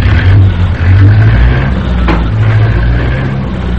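An engine revs loudly as a car speeds away from a gas station. A deep, uneven engine drone wavers in pitch and stays strong throughout.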